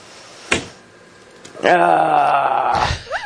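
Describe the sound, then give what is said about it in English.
A woman lets out a long, loud, voiced groan that holds steady for over a second, with a brief sharp noise coming before it. “I relate to that groan right there.”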